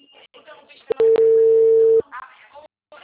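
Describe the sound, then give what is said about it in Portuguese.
A telephone line tone after a dropped call: a few sharp clicks, then one steady, fairly loud held tone lasting about a second, set between stretches of speech. “Nossa ligação caiu. Caiu, aí eu fiquei falando, aí eu vi que tinha caído.”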